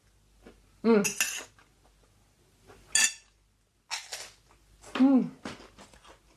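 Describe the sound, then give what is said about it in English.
A fork and spoon clink against a plate while eating nasi goreng, a few short metallic scrapes and taps separated by pauses, with a person talking between them. “So I'm just going to grab a fork and a spoon, because that's how Indonesians would eat their nasi goreng. Spoon in the right hand and fork in the left.”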